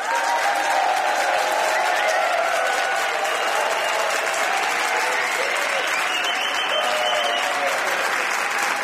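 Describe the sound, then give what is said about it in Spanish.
Applause from a large studio audience at a comedy panel show: a loud, dense, steady wash of clapping that continues without a break from start to finish. “457.000 personas que suenan así”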